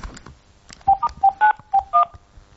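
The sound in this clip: Telephone keypad tones dial back into a call-in line: six short beeps in quick, uneven succession, each a bright two-note chirp at a slightly different pitch, over a faint background hiss.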